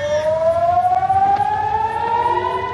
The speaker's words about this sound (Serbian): Zvuk sirene za raketni napad odjeknuo je u luci Haifa i nekoliko područja na sjeveru Izraela